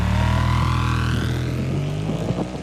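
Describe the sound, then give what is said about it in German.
A motorcycle engine running with four riders aboard, a steady droning hum with strong low tones that holds throughout with slight fluctuations near the end. “Streng genommen ist es illegal, zu viert auf einem Motorrad.”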